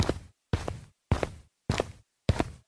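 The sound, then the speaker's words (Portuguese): Footsteps over rocky ground, picking a careful path across a stretch of dangerous stones: five evenly spaced crunching steps, each a short gritty burst that fades before the next, with silence between them. “Por aqui a gente tem que andar com bastante cuidado. E continuamos a caminhar.”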